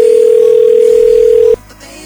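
A telephone ringing tone sounds while a call is being placed: one steady, even tone holds for about a second and a half, then cuts off abruptly and leaves a faint background.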